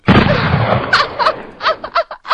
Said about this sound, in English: Shoot that tire out on that zombie's pickup.